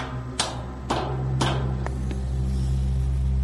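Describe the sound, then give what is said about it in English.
A van's engine cranking without catching: a steady low mechanical drone from the turning motor, with a few sharp clicks in the first two seconds before the whirring continues alone. “The van won't start. Just goes, eh. Yeah, it's just not turning. It's too late to find another vehicle. If they can't get this one to work, stick a fork in them. They're done. It's trying to turn. The motor is turning.”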